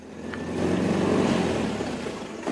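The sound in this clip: Trucks from nearby communes arrive to unload prisoners at a courthouse in Butare, Rwanda, in 1997. A low engine rumble swells, holds steady and eases off without any voices.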